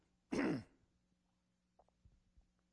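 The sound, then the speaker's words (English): Throat clearing from someone with a dry, parched throat: one short, raspy, forceful burst against near silence, followed by a few faint small sounds. “You get it? Clearing the throat.”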